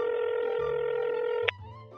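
A steady telephone line tone hums for over a second as a call is being dialed, then a sharp click cuts it off and a different, quieter tone follows.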